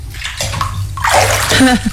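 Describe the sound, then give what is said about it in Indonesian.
Water sloshes and splashes in a tub of freshly heated bathwater as a person gets in and bathes, surging in a few irregular swells of moderate loudness. “Sekarang ibu masuk ke dalam bak itu dan mandi ya.”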